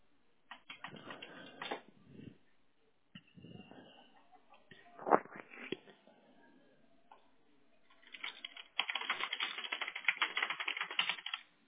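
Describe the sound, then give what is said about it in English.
Fast typing on a computer keyboard, heard as quiet, rapid clatters of keys in several separate bursts with short pauses between them, the final burst the busiest and loudest. “Sounds like you type fast.”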